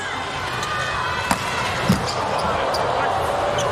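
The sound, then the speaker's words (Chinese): A volleyball serve struck during an international match involving Slovenia: a sharp ball impact, then a second thud shortly after, heard under a commentator's voice and a constant crowd murmur. “周达轩的发球，”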